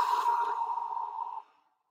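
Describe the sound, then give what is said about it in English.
A slow, deep exhale during a breathing exercise, one soft, airy breath that runs for about a second and a half and then fades into silence, with no talk. “So we'll breathe in, hold it at the top so you really expand your body. And then exhale nice and slow.”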